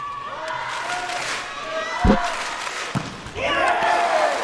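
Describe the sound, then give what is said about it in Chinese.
In a volleyball match, a serve is struck into the net, giving two sharp thuds about a second apart. A noisy arena crowd rumbles underneath and swells just after the second hit. “这球呢，王斌的意图是拼发球，打一个高质量，但是出现发球下网。”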